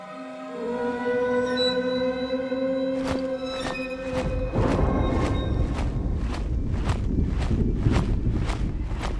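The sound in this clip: Footsteps of several people marching quickly across a schoolyard: crisp, regular steps in a brisk rhythm enter partway through and continue to the end, over sustained musical tones that start before them.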